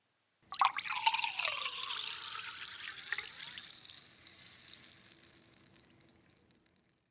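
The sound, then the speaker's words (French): Water pours into a drinking glass in one continuous splashing stream for about five seconds, its tone climbing as the glass fills before it trails off quietly. “Je me sers un verre d'eau.”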